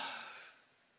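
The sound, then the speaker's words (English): A single deep breath drawn in, an airy, breathy rush that starts strong and tapers away within about half a second, with no voice over it. “Just take a deep breath for me right now, really deep.”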